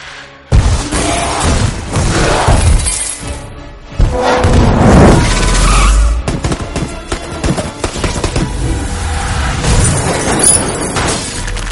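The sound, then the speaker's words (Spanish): A huge creature smashing through city buildings: sustained loud crashing, shattering and booming debris after a sudden heavy impact, with a second big crash partway through and dense rumbling throughout. “Destruye a su paso los edificios contra los que va chocando.”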